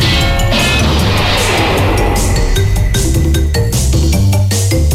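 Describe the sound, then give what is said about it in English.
Video game sound from Crash Bandicoot on the PlayStation 1: loud, dense electronic tones and sustained notes punctuated by many sharp percussive hits. “At number three, did not expect this, Crash Bandicoot on the PlayStation 1.”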